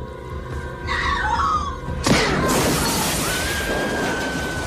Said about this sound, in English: This movie in sound effects, he throws her out of a window. But when she hits the window, it goes off like a shotgun.